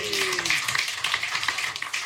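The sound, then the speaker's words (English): A pub audience clapping at a live rugby talk-show recording: brisk, scattered hand claps of moderate loudness, continuing evenly throughout. “We'll have a cheer, please, from everybody in the globe this evening.”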